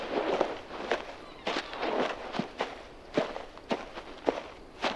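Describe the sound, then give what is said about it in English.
Footsteps of someone walking away, a steady, evenly paced series of many soft, scuffing steps. “Goodbye, Alice. Don't look back. keep walking.”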